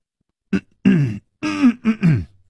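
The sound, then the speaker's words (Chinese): A man clears his throat and coughs in a few short, harsh, rasping bursts, loud and close, with brief pauses between them and no other sound around. “楚留香咳嗽了两声”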